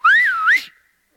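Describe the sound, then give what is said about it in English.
A woman whistles a single clear note that dips in pitch and then swoops back up before breaking off. It is loud and heard on its own, with no voices. “that's a lady who could whistle”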